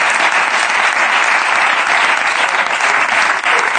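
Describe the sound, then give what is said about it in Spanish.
Loud, steady applause from a crowd cheering for a family, a dense unbroken patter of many hands that holds at the same level from start to finish. “un aplauso para esta familia, que joder, que es una familia de puta madre.”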